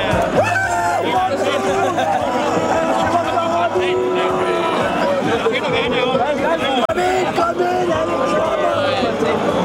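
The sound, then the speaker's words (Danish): Street crowd in Aarhus celebrating AGF's first Danish football championship in 40 years, heard as a dense, unbroken hubbub of many voices chattering and calling out, with a faint low hum underneath. “Ja, der var gang i gaderne i Aarhus, fordi byens fodboldklub AGF altså har vundet Danmarksmesterskabet i fodbold for første gang i 40 år.”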